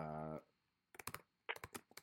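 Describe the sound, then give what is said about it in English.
Typing on a computer keyboard: after a voice speaks briefly, two quick bursts of clicky keystrokes follow, separated by a short pause. “Hold on. Let me type it in real quick.”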